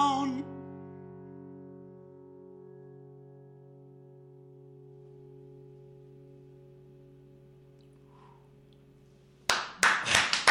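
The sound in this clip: A small studio audience claps briefly, a short burst of a few hand claps that follows a long held musical note slowly fading away.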